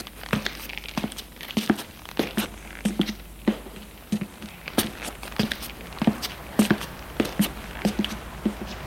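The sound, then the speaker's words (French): Footsteps descend the stairs of an apartment building, many light, crisp steps falling in a steady rhythm. The steps are fairly faint, with soft scuffs between them. “Descend les escaliers de l'immeuble et sort de l'immeuble.”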